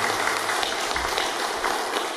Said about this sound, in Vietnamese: Xin toàn thể đạo tràng hãy chào đón Ni Sư bằng một tràng pháo tay thật nồng nhiệt.